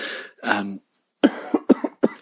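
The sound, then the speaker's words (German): Coughing from a flu-like infection: a rapid series of short, harsh coughs in quick succession, loud and alone with no talking. “Grippe, grippale, Infekt, Fieber, Husten. Husten ist immer noch da.”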